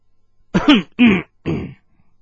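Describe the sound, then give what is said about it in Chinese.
A dry cough rendered as three short, throaty, voiced bursts in quick succession, moderately loud and alone against silence. “冷全福突然干咳了一声”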